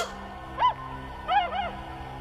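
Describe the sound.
Swans calling: one arched, nasal honk, then two more in quick succession, each clear and fairly loud over a low, steady hum.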